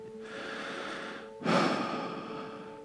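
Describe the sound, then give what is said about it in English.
A deep breath is drawn: a faint, steady airy hiss, then a sudden louder rush of air partway through that slowly fades back. “takes a deep breath”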